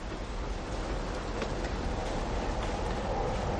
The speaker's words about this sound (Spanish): Llega al andén. Un tren llega.